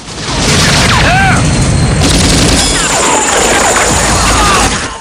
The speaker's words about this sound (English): The gunship rises. Over there! Smoke wafts from the gunship as Zeison fires from the compound.